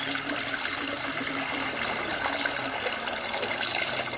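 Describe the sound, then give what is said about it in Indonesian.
Limes are washed in water, a continuous rushing, splashing wash of water that stays fairly even throughout, with no talk. “pertama kita cuci dulu jeruk nipisnya”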